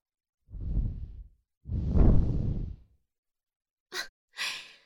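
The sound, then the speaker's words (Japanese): Soft breath blown toward the listener: two long, airy exhales, then two short, quick puffs, with no talk. “黙ったままでいるなら、吐息を、いっぱい、ふうふうしちゃうよ。”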